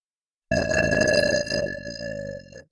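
A woman's long, voiced burp, loud and drawn out for about two seconds with a strong, even tone before it tapers and fades at the end.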